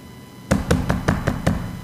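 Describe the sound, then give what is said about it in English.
Six evenly spaced knocks on a door, firm and hollow in a steady rhythm, heard alone after a moment of quiet. “She beats on the door. No answer.”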